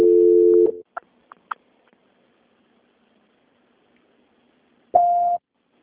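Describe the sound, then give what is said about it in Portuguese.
Voicemail prompt tones on a telephone line: a steady low electronic tone opens, a few short clicks and blips follow, and a higher, steady beep sounds alone near the end, with no talking. “Please leave your message after the tone. When done, hang up.”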